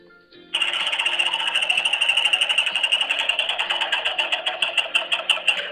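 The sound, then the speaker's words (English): A prize wheel spun in a game kicks in abruptly after a short quiet, giving a bright, rapid ratcheting whir of ticks that grow more distinct toward the end. “so we spun the wheel.”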